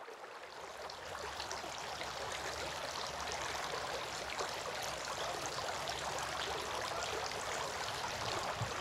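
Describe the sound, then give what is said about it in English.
Running water flows steadily while a face is washed, a faint, even rushing hiss that continues without pause. “He then washed his face three times.”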